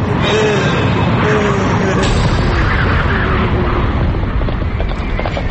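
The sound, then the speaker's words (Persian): A horse carrying a rider approaches at speed. Dense, rapid hoof thuds stay loud and continuous throughout. “یا خدا این اسب سوار کی داره نزدیک میشه؟”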